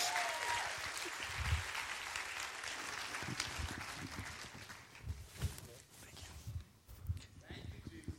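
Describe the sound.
Applause from a church audience at Thrive Church in Federal Heights, Colorado, welcoming a guest speaker. The clapping is dense and continuous, with scattered low thumps running through it.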